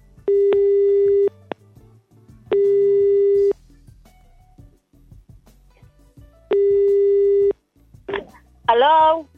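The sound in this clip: A telephone call is dialled out to a listener: three long, evenly spaced ringing tones sound with silent gaps between them, followed at the end by brief voice sounds.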